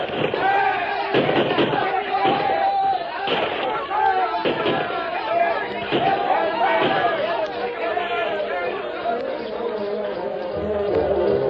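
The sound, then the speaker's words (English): A rifle volley during a staged frontier battle against charging mounted attackers: repeated sharp gunshot cracks at irregular intervals, mixed into a loud, dense clamor of shouting voices. “The first volley from the white men sent a dozen spilling from the saddles, but the rest charged on.”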